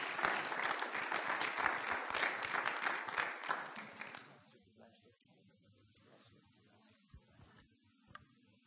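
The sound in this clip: An audience applauds to welcome a pastor as the speaker, loud and dense clapping for about four seconds that then dies away into near quiet broken only by a few faint clicks.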